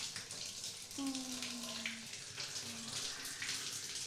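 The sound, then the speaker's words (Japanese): Running water rinses dust and dirt from a person's hair, a steady, even splashing hiss that continues throughout. “髪についたホコリとか汚れを軽く流していきまーす。”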